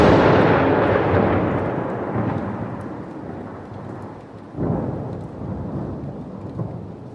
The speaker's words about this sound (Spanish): la angustia de la espera agregó el miedo por los tremendos ruidos de la tormenta que finalmente había decidido desmelenarse sobre la noche.